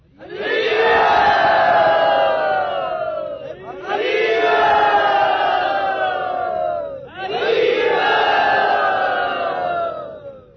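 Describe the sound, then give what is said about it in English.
A crowd at a devotional gathering loudly chants "Hari Bol" in welcome, three long drawn-out group calls, each rising to full volume and sliding down in pitch at its end before the next begins. “And we'd like to welcome Pancharatna Prabhu by very loudly and devotionally saying Hari Bol.”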